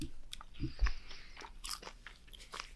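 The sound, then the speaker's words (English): Faint chewing of jerky made with tomato paste and paprika: a few crunchy bites followed by soft, moist mastication, with no talking. “And this tomato paste tastes like ketchup. This tastes like a ketchup jerky.”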